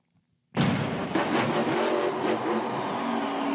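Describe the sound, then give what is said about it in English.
A monster truck engine revving at a competition event bursts in suddenly, then holds a loud, rough, sustained roar with gritty texture and no voices. “Our first competitor is one of the Monster Jam World Finals rookies, Sean Newhan, driving a truck that the fans selected.”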